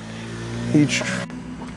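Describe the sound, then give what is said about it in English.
A moped passing down a residential street gives a brief buzzing engine surge under steady background noise, rising and fading within about half a second. “I sometimes have to repeat because mopeds and other traffic noise in the area. The moped just so happened to come down my street as I was just about”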